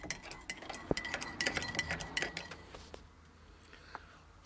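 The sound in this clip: A metal spoon stirs in a cup: quick, bright clinks and scrapes come thick and fast for about three seconds, then thin out to a couple of faint taps.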